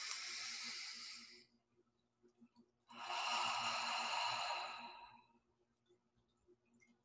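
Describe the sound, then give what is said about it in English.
Deep breaths taken during a guided breathing exercise: two soft, airy breath sounds separated by a short quiet gap, the second longer and fuller than the first. “take a deep breath with me right now. Deep breath.”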